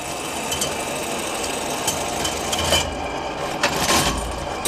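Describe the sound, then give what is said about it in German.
A roughly 125-year-old machine for measuring the area of leather pieces runs in a shoe museum archive. It makes a continuous mechanical rattle and whir, with a few sharper clicks and knocks near the end and no talk. “Diese Maschine misst die Fläche von Lederstücken, auch 125 Jahre später noch.”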